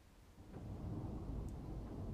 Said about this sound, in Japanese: これ今雷も鳴ってますね。